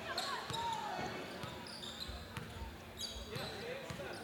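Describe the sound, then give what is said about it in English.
A basketball dribbled on a gym court during the third quarter of a game, with a steady series of low, hollow thuds roughly every half second, set against a busy background of faint voices and scattered high squeaks. “Holland with it now across the timeline, slowly walking with that dribble.”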